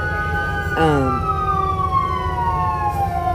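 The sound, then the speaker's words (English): An ambulance siren wails continuously throughout, a loud tonal sound whose pitch drifts slowly downward, with a brief burst of extra noise early on. “And ambulance.”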